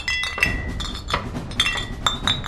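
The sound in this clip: Glass bottles clink together, bottles held by soldiers with torches hidden inside them. Several bright, sharp clinks with short ringing tones sound over a low rumbling background.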